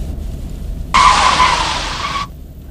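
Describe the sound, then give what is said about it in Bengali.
Tires screech as a speeding truck brakes hard on an empty road: one loud, sustained squeal lasting just over a second, then cutting off abruptly over a low rumble. “এমন সময়ে সজোরে break কষার শব্দে আমার চটকা ভেঙে গেল”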